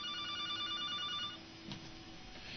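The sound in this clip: A telephone rings for an incoming caller on a radio call-in show: a quick run of bright electronic ring pulses that stops partway through, leaving quiet background.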